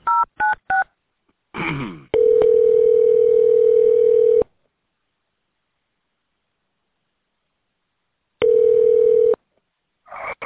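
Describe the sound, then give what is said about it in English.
Telephone keypad tones dial an extension: three quick dual-tone beeps, then a long steady tone, a stretch of silence and another long steady tone. “If you know the 4-digit extension of the person you would like to reach, please dial it now.”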